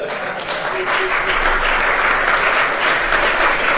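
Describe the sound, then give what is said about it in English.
Audience applause fills the whole clip: dense, steady clapping from a crowd that stays at an even, fairly loud level from start to finish, with no voices standing out. “I actually would like to extend a an honorable applause”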